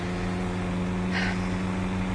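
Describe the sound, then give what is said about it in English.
A car engine drones steadily while driving on the road, a constant low hum with no clear changes and no voices. “I wish that car would get a move on or let me pass.”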